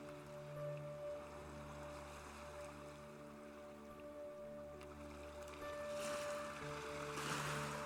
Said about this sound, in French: Tu es maintenant sur une plage de sable fin. Des petits crabes passent à côté de toi.